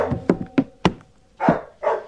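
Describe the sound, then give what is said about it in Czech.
A dog barks aboard a capsized, holed boat wreck, giving a few short, sharp barks in quick succession and then two fuller, longer ones. No one speaks. “Ten pes nás odtud nechce pustit.”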